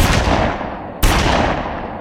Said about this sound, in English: Just for comparison, this is the sound of a 357 Magnum.